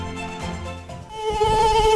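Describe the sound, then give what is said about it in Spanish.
Flies and mosquitoes buzz in a steady, high whining drone, with a few pitch shifts, growing louder and denser in the second half with no voices. “Ya llega el buen tiempo y con él, los visitantes no deseados en tu hogar, las moscas y los mosquitos.”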